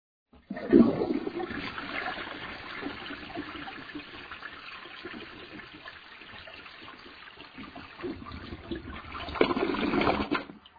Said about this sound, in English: So before we explain this, let's listen to a toilet being flushed.